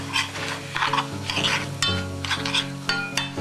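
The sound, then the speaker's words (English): Spoon stirring kasha grains in a pan to coat them in egg, a continuous scraping stir with light clinks of the utensil against the pan and a faint sizzle underneath. “take a little time, but make sure stir it around and get it all covered.”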